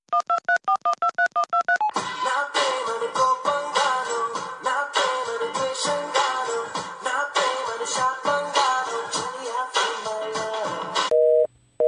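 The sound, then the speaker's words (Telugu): A telephone keypad is dialed, with about ten quick, distinct beeping tones in a rapid run, followed by a long, dense, continuous stretch of busy sound on the line that ends with a brief steady tone. “వాడికి phone కలిపి నేను మాట్లాడతా.”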